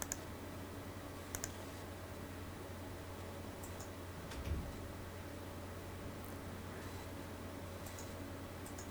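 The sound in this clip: Faint mouse clicks during graphic-design work, a few sharp, quiet ticks spread over a low steady hum, with no voices.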